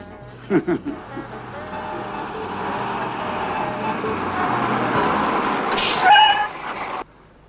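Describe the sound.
A bus pulls up and stops in an animated cartoon. A steady engine drone builds over several seconds, a short sharp hiss flares near the end, and then the sound cuts off abruptly.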